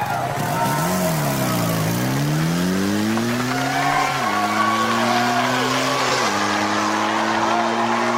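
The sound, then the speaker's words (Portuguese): A motorcycle engine revs inside a circus globe of death, loud and continuous, its pitch surging up and dropping back several times in repeated waves of acceleration over a dense background roar. “E ele desafia o Globo da Morte com sua moto possante.”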